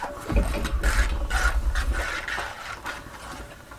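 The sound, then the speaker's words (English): A globe spun upside down on its stand makes a continuous rattling, whirring scrape with low rumbling, loudest at first and gradually easing off. “Okay, now let's spin it. Oops, it's right side up. Okay, let's spin it upside down.”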